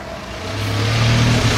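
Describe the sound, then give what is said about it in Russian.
A car drives past, its engine a steady mid-pitched hum that swells louder over about a second and a half. No voices. “Миша сидит на заднем сиденье, машина проезжает мимо Димы.”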